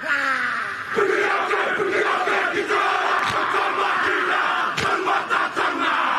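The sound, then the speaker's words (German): A crowd of many voices shouts a Maori haka war dance in unison, a loud rhythmic chant. Sharp, accented bursts punctuate it while the massed voices keep up a dense roar between them. “Die Ureinwohner Neuseelands, die Maori, haben einen Kriegstanz, der heißt Haka. Dabei reißen sie die Augen weit auf, strecken die Zunge weit heraus und machen solche Geräusche.”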